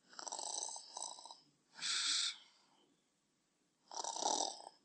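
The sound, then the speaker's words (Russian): Snoring of a boy asleep: a few slow, breathy, rasping snores separated by quiet pauses, soft and steady with no talk. “Вы думаете, это я храплю? Нет, это мой братец Сид, ужасный плакса и ябеда. Вот, спит рядом, и ему на все наплевать.”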